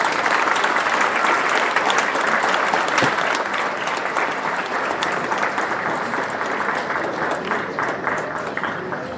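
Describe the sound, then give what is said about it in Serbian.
An audience applauds to welcome a speaker at an evening gathering, with steady, dense clapping that stays loud and continuous throughout. “A vas molim da ga pozdravimo jednim aplauzom kao dobrim domaćinom.”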